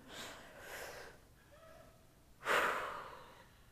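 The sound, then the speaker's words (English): A group takes a collective deep breath before a scripture reading: a faint, drawn-in inhale, a short pause, then a louder, sudden exhale that slowly fades. “we should all take, before we read this scripture, a collective deep breath”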